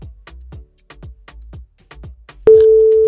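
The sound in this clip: Telephone busy signal heard while calling someone back: a quick run of short, regular pulses, then a loud, steady continuous tone that holds to the end.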